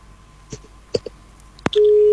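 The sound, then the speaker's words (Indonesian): A telephone line goes dead after a caller is cut off. A few faint clicks and pops come first, then a loud, steady, unbroken tone starts and holds level to the end. “Iya, sayang sekali terputus.”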